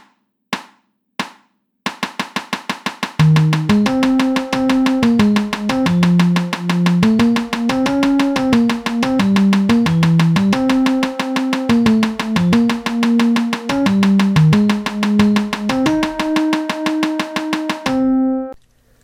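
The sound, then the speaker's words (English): A metronome ticks sixteenth notes at 360 beats per minute in a rapid, steady stream of crisp clicks after a few isolated opening ticks. A sustained melodic line of changing pitched notes plays over the clicking. “Nine, adjust the speed to set the metronome at 16th notes, i.e. 360 beats a minute, and line everything up and slow it down if necessary. Sounds like this.”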